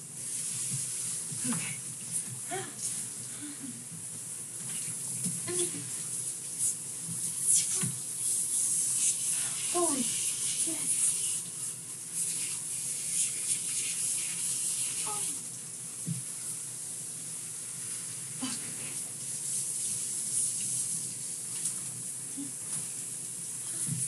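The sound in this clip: A running shower gives a steady, even hiss of spraying water across the whole clip, with a voice speaking faintly over it.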